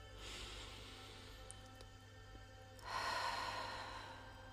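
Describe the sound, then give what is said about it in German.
Deep breathing during a guided relaxation exercise: a soft, airy inhale through the nose, then a pause and a louder, sustained exhale out through the open mouth that slowly fades. “Nimm einige tiefe Atemzüge durch die Nase ein, den geöffneten Mund wieder aus.”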